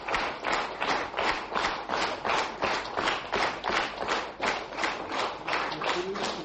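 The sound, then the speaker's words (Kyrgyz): Long, rhythmic applause at an opposition gathering, many synchronized claps beating in an even, repeating pulse and staying loud and regular throughout. “Азыркы бийлик үй-бүлөлүк, коррупциялык башкаруунун торуна түштү деген оппозиция биригүүнү ушинтип узак кол чабуулар менен кубаттады.”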